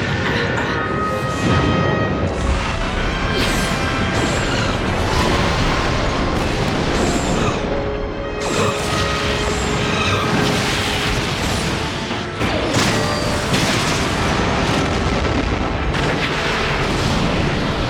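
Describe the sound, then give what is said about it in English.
Continuous barrage of explosions and gunfire as escape pods are destroyed, a dense, loud roar of blasts and shots that stays heavy throughout, with brief dips partway through. “So most of the escape pods got destroyed or shot, except for one, it looks like.”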